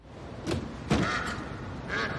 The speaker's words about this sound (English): The duck flaps its wings and darts about, but Lucas grabs the bird.